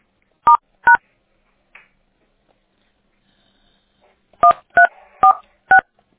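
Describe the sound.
Touch-tone telephone dialing beeps sound while a call is being transferred: two quick tones, a long pause, then four more crisp tones in a steady rhythm, with no talk.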